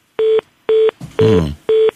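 Telephone keypad dialing tones: four short, steady beeps of equal length, evenly spaced about half a second apart, loud and clean against near silence.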